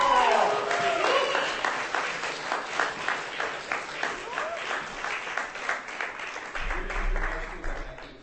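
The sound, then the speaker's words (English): Applause for a performer at a book reading starts as a dense burst, then settles into pulsing, fairly even claps that fade out, leaving a low rumble at the close. “Give her a hand.”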